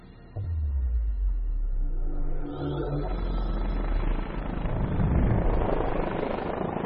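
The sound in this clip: Helicopter flying over pine trees, a low, continuous rotor and engine rumble that comes in suddenly, then grows louder and more roaring toward the end, with no voices.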